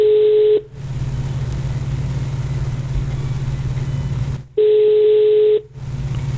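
Ringback tone of an outgoing telephone call: two long steady tone bursts, one at the start and one about four seconds later. Between them runs a continuous low rumble like an idling engine.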